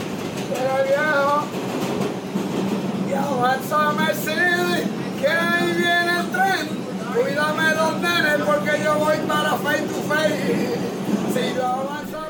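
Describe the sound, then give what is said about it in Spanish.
A New York subway car on line 5 bound for the Bronx rumbles steadily throughout. A lively passenger sings in Spanish over the constant wheel and carriage noise. “Estamos en el metro neoyorquino, en un vagón de la línea 5, camino al Bronx.”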